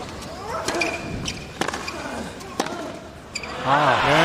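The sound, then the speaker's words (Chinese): A tennis ball is bounced on the court ahead of a second serve in a professional match. Several sharp, dull thuds land at an uneven rhythm while a voice talks steadily over them. “现在第一发球又没有入界”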